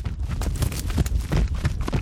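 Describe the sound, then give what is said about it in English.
Hooves of an Arabian horse running in a circle on a lead rope, picked up by wireless microphones on each hoof: a quick, steady rhythm of many dull thuds and scuffs. “I recorded an Arabian horse. Arabians have a different gait than thoroughbreds. And I put 4 wireless microphones on each hoof.”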